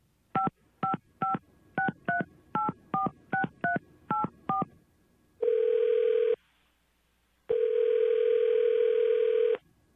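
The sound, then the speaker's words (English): A quick, evenly paced series of touch-tone dialing beeps is heard while a call is dialed. Two long, steady ringing tones follow, the second longer than the first, with a gap of silence between them. “Okay, I'm gonna dial her up.”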